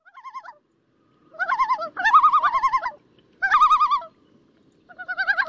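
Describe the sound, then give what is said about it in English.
Common loon calling in a series of quavering tremolo phrases, about five warbling bursts separated by short pauses. Each burst wavers rapidly in a mid-high pitch, clear and loud against a quiet background. “If you visit the Adirondacks, you know that's the call of the common loon.”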